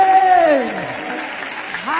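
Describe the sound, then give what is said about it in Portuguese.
Congregation clapping during a lively Portuguese-language church worship service. A steady wash of applause runs throughout, with a voice singing or calling out over it. “Mas olha que as palmas do nosso Deus.”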